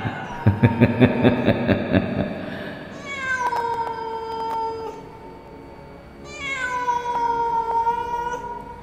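A cat meows in two long, wailing cries, each starting high and sliding down before holding a drawn-out tone, preceded by a burst of rapid rhythmic pulses.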